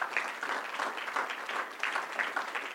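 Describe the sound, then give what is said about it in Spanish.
A church audience applauds, giving a steady and fairly faint wash of many hands clapping with no clear breaks. “Bueno, aleluya, denle un aplauso al Señor.”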